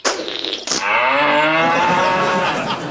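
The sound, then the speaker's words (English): A cow in labour moos loudly while a calf is pulled out with a rope around its hooves. A short burst of noise comes first, then one long, drawn-out, strained moo that holds steady to the end. “put my hand inside Monica... and attach this rope around the baby's hooves. And then we give a great big tug, and out will pop the little calf.”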